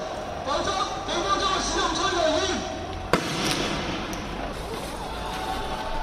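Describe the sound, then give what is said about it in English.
Tear gas canisters being fired at protests against a face mask ban in Hong Kong. A steady, dense roar of street noise runs throughout. A sharp bang cuts through midway, and another hits right at the end. “That's the sound of tear gas canisters being fired in response to protests after Hong Kong's political leader Carrie Lam announced the ban.”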